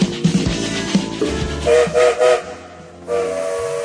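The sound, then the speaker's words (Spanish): Steam train whistle sounding as a train starts moving: three short blasts, then a longer sustained tone, over low clunking and rumbling of rail cars. “Sonó el silbato y el tren se pone en marcha.”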